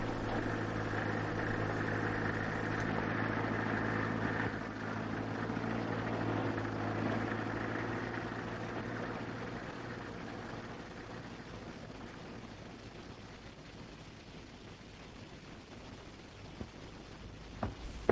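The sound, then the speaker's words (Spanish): Engine rumble from a black car and a moving truck travelling along a rural road. A continuous low drone holds steady for several seconds, then gradually grows quieter over the rest of the stretch, with a couple of faint clicks at the end. “Dos vehículos se acercan por la carretera. Se trata del coche negro de la viuda del hombre extraño y del camión de mudanzas Fausto.”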